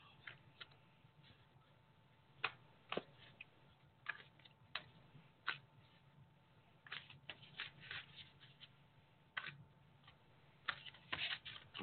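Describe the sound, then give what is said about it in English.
Cards are pulled from a deck in many soft, irregular flicks and snaps, faint and separated by short quiet gaps, with no talking. “let me pull some cards and see they're saying”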